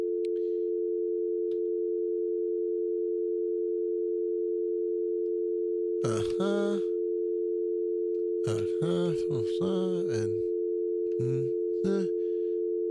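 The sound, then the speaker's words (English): A steady, unbroken telephone tone on a call to a medical company's line, holding one pitch throughout. In the second half, voices talk over it in short bursts. “All right, so it's dialing.”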